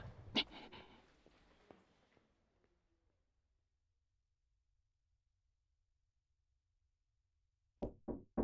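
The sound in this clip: Knocking on a door: a quick burst of a few sharp raps near the end after a long stretch of near silence, with an earlier single thump and fading rustle at the start.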